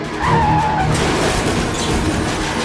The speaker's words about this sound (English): and smashes into a cruiser. 10-4, he's rolled over, he hit the spikes, then rammed the sheriff's car.